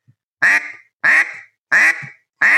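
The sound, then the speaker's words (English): Quacks from a duck call blown with a reed: four loud, nasal honks, evenly spaced, each with a sharp start that tails off, heard alone. “You want to be easy on a call. You want to let the reed work for you. You're just blowing in the air.”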